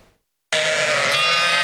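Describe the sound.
A flock of sheep and lambs bleats loudly in open rural grazing land during a snake attack. After a brief silence, a dense, continuous mass of overlapping bleats bursts in and carries on to the end.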